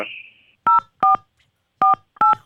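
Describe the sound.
Telephone keypad dialing tones as a caller is patched into a call: four evenly spaced short, bright beeps, after a brief high tone that fades out at the start.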